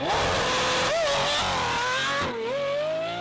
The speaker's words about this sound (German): Der neue Lamborghini.